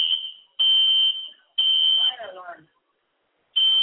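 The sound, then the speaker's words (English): A building fire alarm going off during a football game, with loud, piercing, high buzzing blasts repeating in long pulses with short gaps; a voice talks briefly between two blasts. “Fire alarm. Well, ladies and gentlemen, it looks like we have a fire alarm in the building.”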